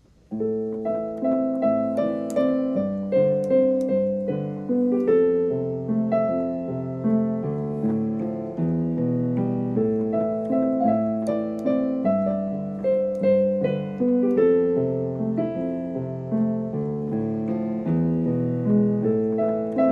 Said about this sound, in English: Here's a piano piece I'm writing, and it so far sounds like this.